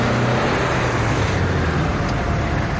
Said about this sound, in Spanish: los dos van en el coche